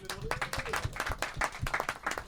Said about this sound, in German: Applaus für die später ankommen.